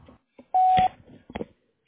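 A single steady electronic answering-machine beep, loud and lasting about a third of a second, set among short, faint, sparse sounds before and after.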